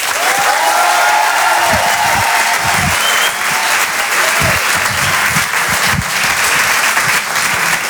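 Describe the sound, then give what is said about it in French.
A comedy audience applauds a comedian coming on stage, with loud, steady clapping that fills the whole stretch without pause. “Je vous demande de faire un maximum de bruit, s'il vous plaît, pour Tristan Lucas.”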